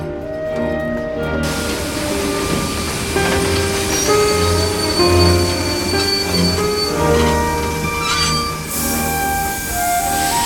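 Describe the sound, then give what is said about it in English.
A train pulls into Nagoya Station with a loud, continuous rumble of rolling wheels. High squealing and whining tones sound throughout the ten seconds, with no break in the noise. “Nohoko looks out the window as her train reaches Nagoya Station.”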